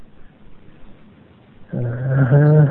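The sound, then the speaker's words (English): A large 150-pound dog gives one deep, drawn-out bark with a rough, growling edge near the end, loud after a stretch of faint low background noise. “Was that the dog? It's 150-pound dog.”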